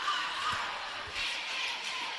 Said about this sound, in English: Dribbling around the free throw line.